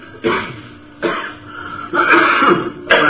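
A person clearing their throat in a few harsh, gravelly bursts separated by short pauses. The last bursts come closer together and sound slightly louder.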